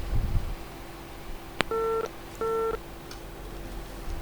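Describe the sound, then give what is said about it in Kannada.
Telephone line tones after a caller's call is cut off: a sharp click, then two short steady beeps of equal length separated by a brief gap, faint over low background hiss. “ಸರಿ, ನಮ್ಮ ಕೇಳುಗರ ಒಂದು ಕರೆ ಕಟ್ಟಾಗಿದೆ.”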